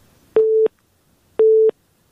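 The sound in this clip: A telephone busy tone sounds after a call is cut off: two steady, mid-pitched beeps of equal length, separated by about a second of near silence.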